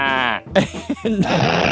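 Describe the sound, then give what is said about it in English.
A sheep bleating: a wavering, nasal cry comes first, followed by brief voiced sounds that may be speech. “Do we have sheep in here or goats? Yeah, did somebody kill a fucking sheep?”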